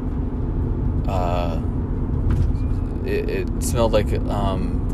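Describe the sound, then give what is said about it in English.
Fire trucks driving up a hill, a deep, steady engine rumble that holds throughout while people talk over it. “Ooh, fire trucks. Coming up a hill.”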